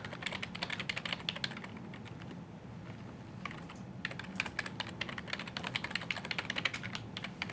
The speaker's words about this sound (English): Type faster, type faster. I'm trying my best, trying my best.